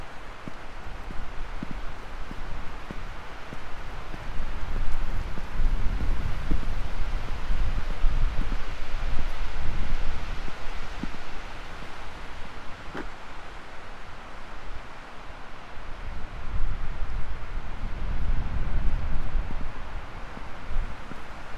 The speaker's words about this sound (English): The wind is more or less behind me. The tops of the trees are waving violently, and if I turn around, I'm facing more into the wind